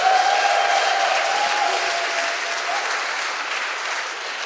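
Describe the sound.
A church audience applauds to welcome a speaker to the front, steady, full clapping that eases slightly toward the end.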